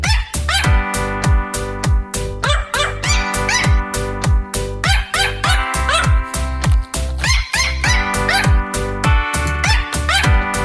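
A dog barks rapidly in a steady, insistent rhythm, mixing sharp yips with whimpering cries throughout, loud and continuous.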